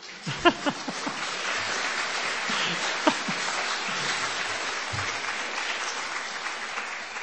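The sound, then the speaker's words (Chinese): Applause from an audience, a sustained, moderately loud patter of many hands, opening with a few sharper standout claps before settling into an even, continuous wash that tapers slightly toward the end. “我们大家听到的是要为我们人类的这样的一个心灵的伟大鼓掌啊。”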